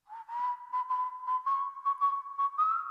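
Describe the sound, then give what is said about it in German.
A man whistles as he walks away, holding a clear tune close to a single pitch, with breathy accents and a slight upward lift near the end. “Da geht er und pfeift.”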